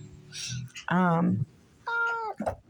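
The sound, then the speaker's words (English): A cat meows twice, each call a clear, tonal mew of about half a second separated by a short pause, with a few softer sounds just before. “That was my cat. He said hi.”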